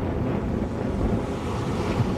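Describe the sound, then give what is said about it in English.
Sea waves wash in over rocks as the tide goes out, producing a constant rushing surf noise mixed with wind buffeting the microphone, steady and even in level. “The wave just come in less and less and less each time, but the water that is here remains standing.”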